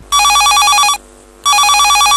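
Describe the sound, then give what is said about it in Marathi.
A telephone rings for an incoming call: two loud bursts of bright, rapidly trilling electronic ringing, separated by a short silent gap. “चला तर श्रोत हो कार्यक्रमाची सुरुवात करूया या फोनने.”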